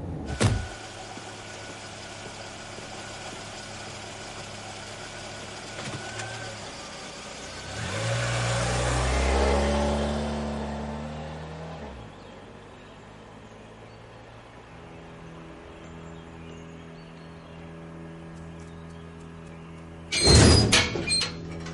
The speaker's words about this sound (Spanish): Los chicos van en coche hasta sus casas.